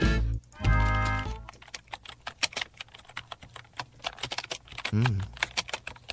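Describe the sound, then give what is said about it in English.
Typing on a computer keyboard: many rapid, irregular key clicks and clacks in quick succession, with a louder, humming burst of some other sound near the start. “Typing.”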